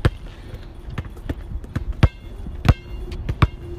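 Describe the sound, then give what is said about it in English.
A basketball dribbled during layup practice: many hard, hollow bounces in an irregular rhythm, some louder than others, with no voices over them. “Nice layup. Don't dribble too hard.”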